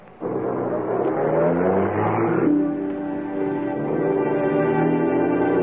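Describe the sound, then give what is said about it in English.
A car pulls away with a loud engine drone that starts abruptly. Its harmonic tones climb in pitch as it accelerates, then settle into a steady, sustained hum. “She drives off.”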